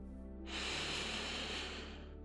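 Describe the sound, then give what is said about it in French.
A single deep breath in, a steady airy rush lasting over a second, over a soft sustained background tone. “Prenez maintenant une grande inspiration”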